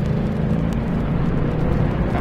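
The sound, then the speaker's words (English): A race car's engine roars as it accelerates hard in third gear at about 65 miles an hour onto a track straightaway. The roar is loud and continuous, with a dense rumbling tone throughout. “Going around about 65 miles an hour now, accelerating hard in third gear as we swing out wide onto the straightaway.”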